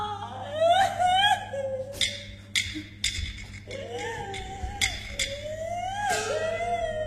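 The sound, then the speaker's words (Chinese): Stylized crying from a performer in traditional Beijing opera or folk storytelling, heard as several phrases of wavering, pitched wailing sobs over sharp clicks and a steady low hum. “别哭了，别哭”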